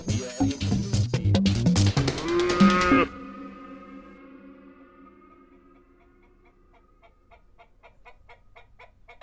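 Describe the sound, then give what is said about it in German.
A bull calf moos in a farm stall, giving loud, drawn-out lowing calls for about three seconds. Quieter, repeated tonal animal calls follow, with chickens clucking among the livestock sounds. “Eben hat die Polizei das Bullenkalb zurückgebracht.”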